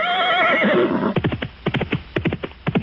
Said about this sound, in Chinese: 哒哒哒，马蹄作响，几匹快马疾奔而来